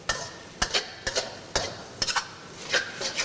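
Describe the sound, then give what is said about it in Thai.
A spatula stirs noodles in a pan, gently moved to keep the strands from sticking, with many short, irregular scraping strokes that stay fairly faint. “เทคนิคง่ายๆไม่ให้เส้นขาดก็คือจับตะหลิวเนี่ยครับลงแล้วค่อยๆ คนอย่างนี้นะฮะเพื่อที่จะไม่ให้เส้นติดกัน”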